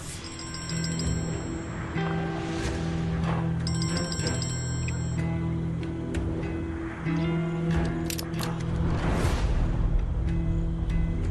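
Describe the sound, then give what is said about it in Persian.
A telephone rings in two short bursts of shrill trilling tone, set over sustained, steady tonal sounds that continue throughout. “جواب بده پسر، جواب بده تلفن. گفتم بعدم زنگ. جواب بده تلفنو و بذار رو پخش.”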